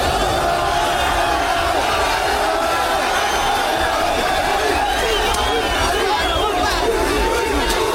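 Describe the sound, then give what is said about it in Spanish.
Moroccan football fans protesting in the streets of London after Morocco's World Cup elimination, a loud, constant crowd roar of shouting, chatter and cries with no letup. “y después del partido los bares y restaurantes que estaban llenos de hinchas salieron a protestar por la eliminación de Marruecos. Este era el sonido de Londres después de la derrota de Marruecos.”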